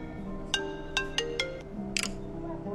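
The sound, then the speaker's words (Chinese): A phone ringing with an incoming call, a ringtone of a few short bright tonal chirps spaced unevenly over a low steady hum, ending with a quick double chirp. “刚把少群的事发过去，洛毅的电话就打过来了。”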